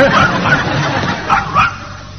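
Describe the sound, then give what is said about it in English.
A dog gives a few short, sharp barks in a lively scene, with background murmur and noise around the barks. “He'll give one bark for walkies and two barks for the other thing.”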